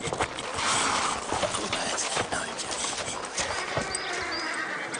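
Horse hooves clip-clop as an animal arrives to be tied up, with a run of many irregular hoof strikes over a busy background and no talk.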